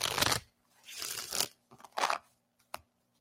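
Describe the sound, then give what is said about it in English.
Oracle cards being shuffled and drawn: three papery riffling bursts, each about half a second long, followed by a short, crisp snap of a single card, with near silence between them. “I pulled the clarity card”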